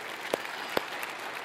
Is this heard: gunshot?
no